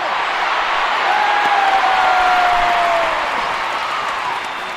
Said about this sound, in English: That is the sound of a very happy crowd. A penalty has just been awarded for a foul on Lauren James.